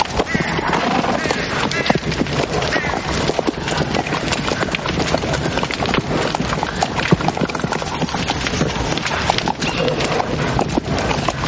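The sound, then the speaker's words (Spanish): Hooves of a mounted group of riders with their retinue of knights clip-clopping through a devastated medieval city, a dense, continuous clatter holding a steady loudness throughout. “Arturo y Ginebra cabalgan seguidos de su séquito de caballeros”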